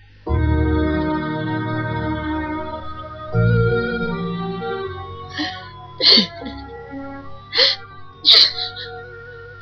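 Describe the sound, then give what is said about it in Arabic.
A woman sobs, with a few sharp, gasping inhalations and sniffs breaking through a steady tonal background. “مالك بس يا زوجتي الحبيبة؟ قاعدة بتبكي ليه؟”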